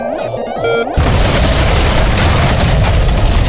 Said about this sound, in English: Wait, did we blow it up? Yes, I did! I blew it up.